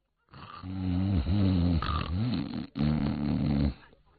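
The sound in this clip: A storyteller's voice imitates two sleeping men snoring in a tale of generals being summoned: a few long, rasping, throaty snores with a snorting edge, separated by a short break near the end.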